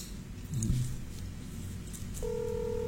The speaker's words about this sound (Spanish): Me estoy tomando el atrevimiento de llamarle.